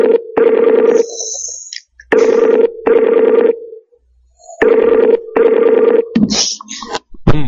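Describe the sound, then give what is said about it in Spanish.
Telephone ringing tone on an incoming call as it is accepted: steady, buzzing bursts of ring, a few in a row separated by short pauses, loud and alone, ending in a brief burst of different noise. “A ver, vamos a aceptar una llamada más.”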